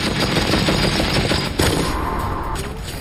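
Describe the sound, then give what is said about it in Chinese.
Rapid, continuous machine-gun fire from a German MG42: a loud, dense stream of shots so fast they blur into a steady roar, with a brief dip partway through before the firing carries on to the end. “MG42 是德国人制造的一种多用途机枪，拥有令人生畏的射速，1分钟1500发子弹，听起来就像布匹撕裂的声音。”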